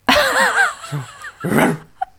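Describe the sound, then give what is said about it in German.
A person's voice imitates the barking of an Afghan hound: a few loud, throaty, yowling barks with wavering pitch, followed by a short click. “weil du gerade sehr selbstbewusst nachgemacht hast, wie ein Afghane bellt.”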